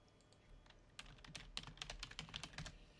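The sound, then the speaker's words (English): Rapid typing on a computer keyboard while writing in a Zoom chat: many quick, irregular plastic key clicks, faint and close together, with no voices. “I've just had to type in the chat.”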